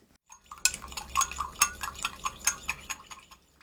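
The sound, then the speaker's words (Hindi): A spoon clinks repeatedly against a bowl while stirring dashi stock, soy sauce and sugar until the sugar dissolves. The clinks are many, irregular and bright, with no talking. “इसके लिए एक cup दाशी stock में 2 बड़े चम्मच soya sauce और 1 छोटा चम्मच चीनी मिलाइए। चीनी घुलने तक सारी सामग्री को अच्छी तरह मिलाइए।”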